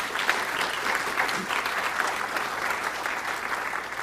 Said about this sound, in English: Let's give them a hand. They've been tremendous.